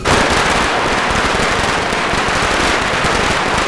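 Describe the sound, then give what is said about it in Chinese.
Firecrackers set off to celebrate a birthday and chase away bad luck: a dense, loud, continuous crackle of rapid pops that runs without a break from start to finish. “你过个生还放炮呢。 哎呀，姐，你弟这两年净走背字儿呢，放个炮去去邪气嘛。”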